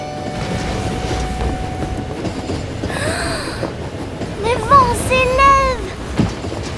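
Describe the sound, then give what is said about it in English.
A passenger train crossing a bridge rumbles steadily on its rails, with a broad, continuous roar and brief high tonal squeals rising in the second half. “The train crosses a bridge, causing a breeze to blow off Jiro's hat.”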